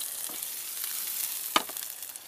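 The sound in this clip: Onions sizzle and fry in a pan, giving a steady, bright crackling hiss throughout with one brief, sharper pop partway through.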